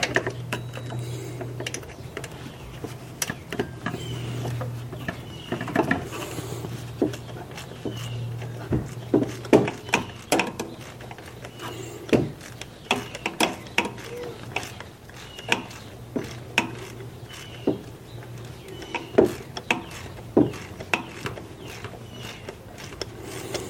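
Tightening a bolt inside an engine makes many irregular, sharp metallic clicks and taps at moderate loudness, over a low steady hum throughout.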